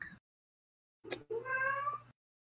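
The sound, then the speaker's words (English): A cat meows once in a long, wavering, mid-pitched call, preceded by a short sharp noise. The sounds are fairly faint, separated by silence, and there is no talk. “Cat, shut up! Excuse my cat.”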